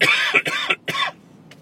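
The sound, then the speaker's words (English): Coughing after nearly choking on a drink: three harsh, loud coughs in quick succession, then a faint, short breath. “But I can't almost choke on a drink. Don't breathe and drink at the same time. It doesn't work.”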